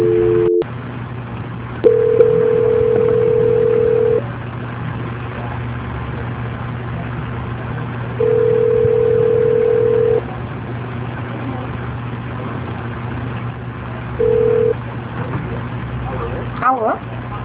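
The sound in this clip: Telephone tones sound on a phone line during a call transfer: a short tone, then two steady mid-pitched tones of about two seconds each separated by gaps, then a final brief tone, all over a low constant hum.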